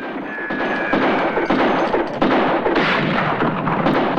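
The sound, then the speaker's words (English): Gunfire from several men shooting after fleeing riders in a western scene, heard as a loud, dense, continuous barrage of overlapping cracks and booms with no talk. “Harlan and his surviving men fire after Joe and Helen, in confusion, as they witness their own horses galloping away too, frightened by the gunfire.”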